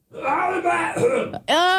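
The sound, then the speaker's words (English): Guttural, throat-singing-like vocal sound from a human voice: a low, droning groan lasting over a second, then after a short gap a brighter, strained vocal burst. “If you want some ASMR of some guttural, what's the word, like throat singing?”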